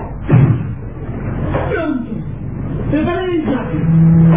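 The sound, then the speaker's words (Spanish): A car's rear door opening as a sound effect in a Spanish-language radio drama: a single dull thump near the start, then a man narrating over a muffled background. “abriendo la portezuela posterior ayudaban a descender a la hermosa y enigmática mujer.”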